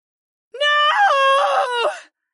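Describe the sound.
A woman's blood-curdling scream rings out as one sustained, strained, high vocal cry lasting about one and a half seconds, loud against silence, wavering slightly in pitch before cutting off abruptly.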